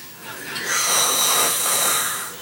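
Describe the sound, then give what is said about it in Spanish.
A bored bass drummer lets out a long yawn during a coronation procession: a breathy, airy swell that builds, holds for over a second, and then fades, with no clear speech over it. “se aburre el bombisto y mete un bostezo de eso como de los de”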